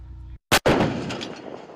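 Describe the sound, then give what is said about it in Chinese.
An artillery gun fires at a target during a live-fire assessment in unfamiliar terrain. After a moment of silence comes a sudden, loud, sharp boom that trails into a long, rolling rumble and slowly fades. “炮长借用考核间隙迅速复盘总结，及时测算修正量，并调整射击参数，再次对目标实施打击。”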